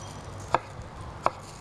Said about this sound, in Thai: แล้วก็หั่นแตงกวาเราจะหั่นที่มีลักษณะเป็นแท่งๆเหมือนกันนะคะเพื่อจะได้ห่อได้ง่ายขึ้นนะคะ